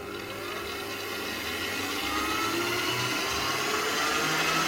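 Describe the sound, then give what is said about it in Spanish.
Electric mixer beating a mixture at maximum speed to emulsify it until nearly meringue-like, a loud continuous high whir that holds steady and swells slightly, with no voices. “Y ahora esto lo vamos a batir durante 6, 7, 8 minutos a máxima velocidad, el tiempo necesario para que esto emulsione bien.”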